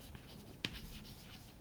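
Faint handwriting scratches steadily at a low level, with one brief, sharper tap partway through.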